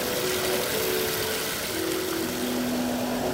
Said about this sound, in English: filling up a bucket with a compound which is made of hydrogen and oxygen